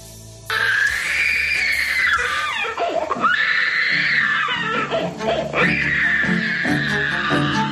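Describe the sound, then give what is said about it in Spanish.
A child screams in a tantrum with long, piercing, high wails broken by a couple of brief catches of breath. The screaming stays loud and strained throughout. “Vaya berrinche, ¿eh? El chiquillo, madre mía, ¿eh?”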